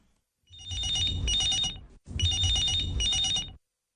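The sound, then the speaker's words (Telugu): A telephone rings twice for an incoming call to a live phone-in radio programme: two long, bright trilling bursts separated by a very short gap, loud and with no voices. “Hello FM కి ఎవరు phone చేశారు?”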